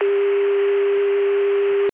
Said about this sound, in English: The 288 PBX dial tone sounds similar but is not the same as the CCSA dial tone from Chicago and Connecticut. This is 288. This is the CCSA dial tone.